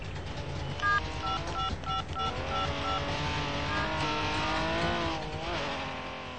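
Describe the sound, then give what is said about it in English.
A Porsche arriving, heard as a fairly faint engine whose tone rises and falls while the car approaches, with a few short electronic beeps near the start. “The Porsche only arrives and the Trabi is already there.”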